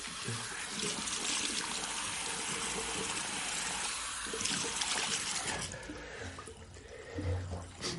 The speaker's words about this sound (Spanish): se lava manos y cara en el baño.